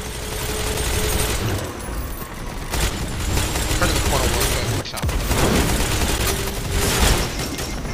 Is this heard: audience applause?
no

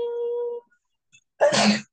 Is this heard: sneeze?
yes

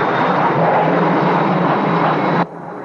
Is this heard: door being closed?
no

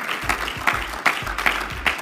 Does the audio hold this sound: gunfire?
no

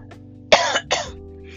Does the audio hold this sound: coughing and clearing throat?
yes

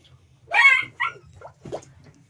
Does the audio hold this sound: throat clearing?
no

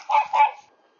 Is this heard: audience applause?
no

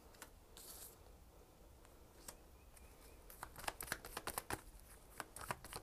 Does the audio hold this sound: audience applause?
no

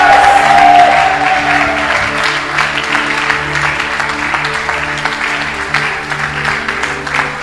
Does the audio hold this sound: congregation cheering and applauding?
yes

